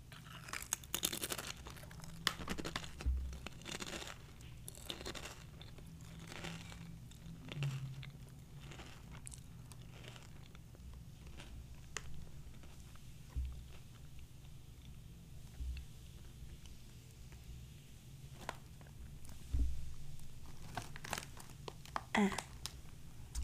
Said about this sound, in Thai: กินไปกินมาเริ่มอร่อยขึ้นเรื่อยๆอ่ะขออีกคำแล้วกันค่ะ